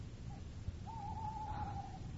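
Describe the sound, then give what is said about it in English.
An owl gives one long, steady, high-pitched cry lasting about a second, preceded by a short faint note, over a low background rumble. “It was the owl that shrieked, the fatal bellman which gives the sternest good night.”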